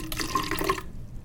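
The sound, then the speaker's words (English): Liquid pours into a bottle in a brief, bubbling gurgle that runs for under a second and then cuts off to near silence. “Adding the liquid to the bottle, I have a little bit more to do.”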